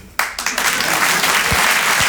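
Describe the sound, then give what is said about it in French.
An audience breaks into applause during a French-language stage monologue, the clapping bursting in suddenly, swelling over the first half second and then holding as a dense, sustained patter. “Votre applaudissement, il est trop bien”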